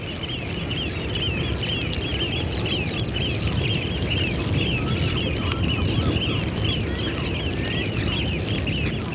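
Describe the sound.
Flocks of birds over North Sea mudflats give a continuous chatter of many calls and honk-like cries, layered over a steady low rumble of wind noise.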